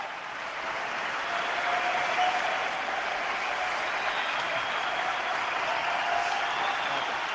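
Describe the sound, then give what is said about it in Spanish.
Standing ovation at the Martín Carpena arena as the crowd refuses to let Rafa speak: dense, steady applause sustained without a break, a wide even roar of clapping hands. “No le dejan hablar. Sigue ovacionando en pie todo el Carpena y no dejan hablar a Rafa.”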